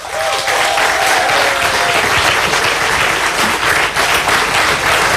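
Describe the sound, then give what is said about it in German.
Loud audience applause for a performer on stage, thick and continuous clapping that stays strong for about five seconds. “Sie sind zahlreich erschienen und können vielleicht nochmal genauso kräftig applaudieren für Sarah Bosetti.”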